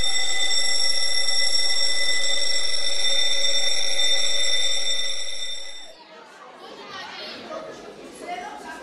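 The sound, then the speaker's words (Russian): A school bell rings with a loud, steady metallic tone for about six seconds, then cuts off as children's chatter and playful voices fill the rest. “Звенит звонок.”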